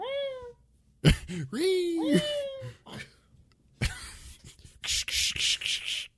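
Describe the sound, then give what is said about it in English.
Rasping scratch bursts of claws, several rough strokes in a row, come after a voice making whiny, meow-like sounds in imitation of a cat. “Oh no, it's the sound of his claws. We gotta get out of here.”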